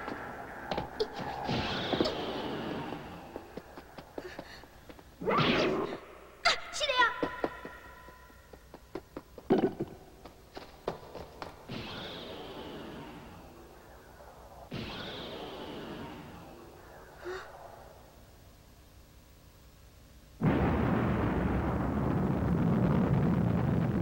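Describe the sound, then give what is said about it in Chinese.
Gunshots in a forest where someone is catching insects: several sharp, booming cracks at irregular intervals, each with a rumbling decay, followed at the end by a sudden steady roar. “啊！是枪声，有人在树林内底抓虫。”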